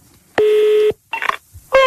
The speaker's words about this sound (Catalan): Fem una trucada. Truquem al meu cosí.